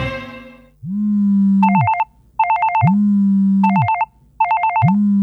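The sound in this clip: An electronic telephone ringtone repeating in cycles: a sustained low buzzing tone alternates with a fast, warbling high trill, loud and clean with no voices.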